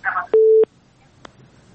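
A phone line busy tone after a dropped call sounds as one short, loud, flat beep of steady mid pitch lasting about a third of a second, then near silence broken by a faint click.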